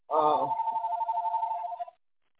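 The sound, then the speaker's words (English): A telephone rings: one warbling ring tone that starts strong and holds steady for nearly two seconds, then cuts off into silence. “sorry about that phone”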